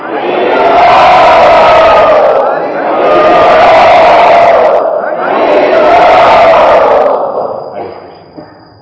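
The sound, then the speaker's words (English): Devotees loudly chant "Hari Bol" in greeting: three long, full-throated group shouts in a row, each swelling and holding for about two seconds, before the voices fade out. “And so we greet all the devotees who just came and those devotees who had already been here with our very loud and hearty Hari Bol.”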